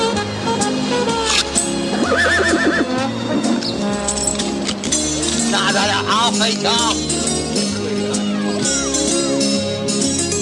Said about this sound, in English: He stands in front of the horse and bites the end off the carrot. He gives some to the horse.